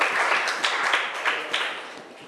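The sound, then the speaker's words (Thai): Applause for a group of children during a lesson on reducing waste: a brief round of many hands clapping, with a few accented claps, trailing off toward the end. “เอาปรบมือให้กลุ่มหนึ่ง”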